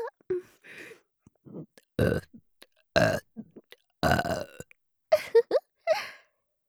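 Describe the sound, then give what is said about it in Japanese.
Several deliberate burps, three long, loud and rough, mixed with softer breathy exhales and brief voiced sounds from the same person in an otherwise quiet space. “ゲップ聞けて嬉しかった？”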